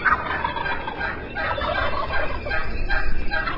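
Turkey gobble calls ring out at a turkey calling competition at the National Wild Turkey Federation Convention in Nashville. Loud, rattling gobbles overlap continuously without pause.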